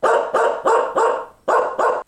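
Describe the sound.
A dog barks in a quick, steady run of sharp, loud barks with short gaps between them, heard alone without voices.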